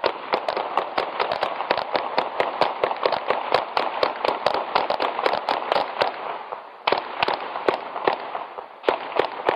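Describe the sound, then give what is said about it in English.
Gunfire from a shooting in a large city at night, captured by microphones on telephone poles and tall buildings: many sharp, cracking shots in a rapid, uneven string, with a short gap before the last few. “That was 32 rounds, recorded by microphones mounted on telephone poles or tall buildings somewhere within a mile of the shooting.”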